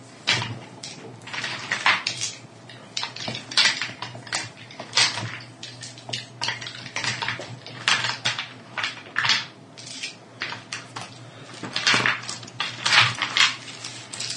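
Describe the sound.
Dice clatter and rattle during a tabletop role-playing game session: many quick, sharp clicking knocks in irregular bursts over a steady low hum, with no voices.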